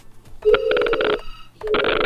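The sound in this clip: A telephone rings for an incoming call on a busy phone line: two bursts of trilling electronic ringing with bright harmonic tones, the first longer than the second, separated by a brief gap, with no voices.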